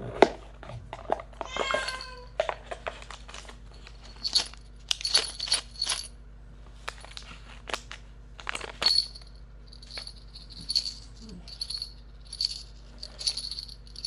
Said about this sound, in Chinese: 你听着这个铃铛的声音，你的身体会越来越放松